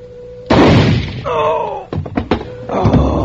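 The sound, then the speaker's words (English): A shotgun goes off in a dramatic scene: a sudden loud blast that rings on for about half a second, followed by a brief vocal cry and a few sharp knocking thuds. “The gun went off.”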